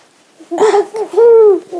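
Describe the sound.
A person gurgles food in the mouth instead of eating it, making a few short voiced babbling bursts, then a longer wavering gurgle and a brief final one, fairly loud and alone.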